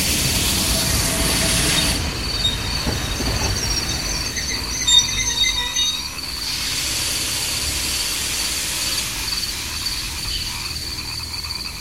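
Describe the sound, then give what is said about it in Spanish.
A train runs along the rails with a continuous loud rumble and clatter, while a shrill, high screech of squealing wheels swells and fades in long stretches. No one speaks. “Chicos, apúrenle o perderemos el tren.”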